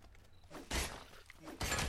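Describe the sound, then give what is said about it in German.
An axe breaks in a video game while chopping trees, heard as two loud, bright, noisy shattering bursts with quieter crackles between them. “Oh, mein Axt ist kaputt.”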